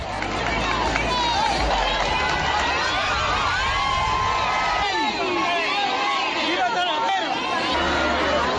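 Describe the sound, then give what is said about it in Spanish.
A crowd chants "Viva el rey" to greet the king on a visit to Talavera. Many voices merge into a dense, continuous babble with cheering, loud from start to finish. “¡Viva el rey! ¡Viva el rey! Decían.”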